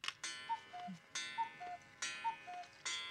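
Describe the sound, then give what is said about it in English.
A household clock that has always stood in the house ticks steadily, giving a regular tick-tock of crisp clicks with short tonal chimes in between, repeating evenly with no voices. “What's he gonna do with that clock? Clock was always there.”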